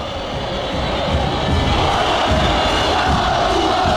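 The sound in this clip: Massed San Lorenzo football fans chant loudly against their own team, a dense and continuous roar of voices singing together that swells a little as it goes on.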